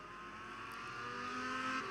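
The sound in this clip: Mazda MX-5 race cars roar in the iRacing video game at Okayama International Circuit. A steady, dense engine drone holds throughout and swells slightly louder toward the end, with no talk.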